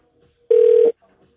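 One telephone ringback tone sounds as a call connects to a bank operator. It is a single steady, mid-pitched tone lasting under half a second, alone in near silence.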